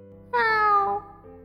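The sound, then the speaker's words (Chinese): A white cat gives a single soft, timid meow, a clear tonal cry whose pitch bends gently downward before it trails off into near silence. “诺诺地喵呜了一声”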